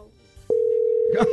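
A telephone call tone sounds after a brief quiet moment: one steady, single-pitched tone that holds to the end, with a short burst of noise just before it stops.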